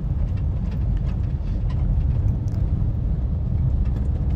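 Interior rumble of a car being driven, heard from inside: a loud, constant low-pitched drone of engine and road noise that holds steady throughout.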